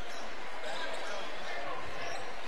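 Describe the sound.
Basketball dribbled at the point during a game, the ball's repeated bounces thudding under a steady wash of crowd noise.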